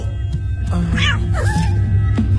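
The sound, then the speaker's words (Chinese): Cats meow a few times, with short rising and falling cries over a constant low rumbling background. “你为什么养这么多猫啊？”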